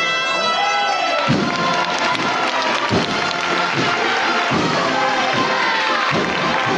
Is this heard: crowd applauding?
yes